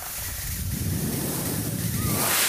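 A steam cleaner sprays steam in a steady, loud, broad hiss that continues unbroken, with a low rushing undertone and no voices.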